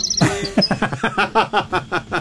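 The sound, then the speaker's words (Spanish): Small birds chirp close to the microphone in many quick, sharp, high chirps repeated in a steady rhythm, loud and clear, with no talking. “¿Y ahora por qué los pajaritos? Se están acercando el”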